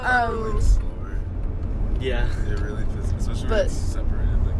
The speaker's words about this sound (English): And oh, are we in the right lane? We're driving back from Coachella. We're also podcasting. I think you're good. I think it's just a carpool.